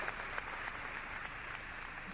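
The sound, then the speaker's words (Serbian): Applause in the Chiesa degli Artisti on Piazza del Popolo in Rome, a farewell to the artist Jannis Kounellis: soft, even clapping that continues steadily throughout. “I tako se Rim oprostio od Janisa Kunelisa ovim aplauzom. U crkvi koja je posvećena umetnosti.”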